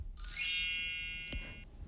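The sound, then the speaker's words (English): A mobile phone rings with one bright, high-pitched chime tone that holds for more than a second and then cuts off. No talk is heard. “Your phone? I don't know how to turn this thing off.”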